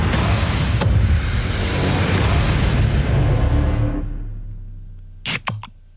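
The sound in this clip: A soda can opened during a beer-or-soda guessing game gives a loud, sustained fizzy hiss for about four seconds. A few sharp clicks follow near the end.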